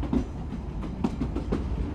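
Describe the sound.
A train runs on the railway line between Tournon-sur-Rhône and Lamastre, a steady low rumble carrying repeated rhythmic clacks of wheels over rail joints at an even, moderate level, with no voices.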